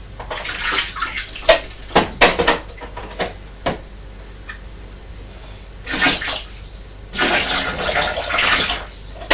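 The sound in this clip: Water splashes and sloshes as a child plays with two bowls of water, one white and one brown. Irregular bursts of splashing come and go, ending in a longer run of sloshing.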